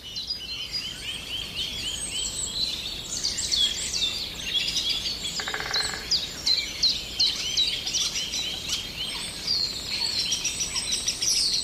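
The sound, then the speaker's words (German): A Eurasian blackbird singing within a dense chorus of birdsong, with many overlapping chirps, whistles and trills running loud and continuous throughout, no voices. “Da war eine Amsel mit reingestreut.”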